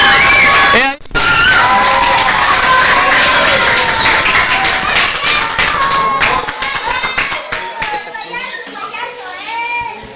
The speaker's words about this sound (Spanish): Vamos a dar un fuerte aplauso a Eduardo Killer, que está ahora mismo, pero que se escuchen los aplausos más fuertes para que él salga emocionado.